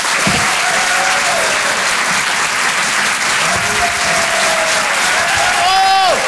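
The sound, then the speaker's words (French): Applause from a comedy club audience greeting a stand-up comedian: loud, dense, steady clapping that fills the whole clip, with a few brief whistles or cheers rising above it. “Faites un maximum de bruit, s'il vous plaît, pour Monsieur Yann Guillaume”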